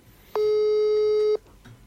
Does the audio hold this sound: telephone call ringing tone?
yes